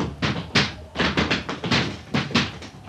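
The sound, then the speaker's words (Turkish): A door takes heavy blows as it is broken down: many hard thuds and knocks in an uneven, rapid sequence, each sharp and loud against a low rumbling background. “Cevap yok. En iyisi kıralım kapıyı.”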